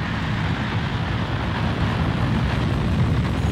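A smoky rocket lifts off with a steady, broad, rumbling roar that holds at an even, loud level throughout, with no clear breaks or pauses.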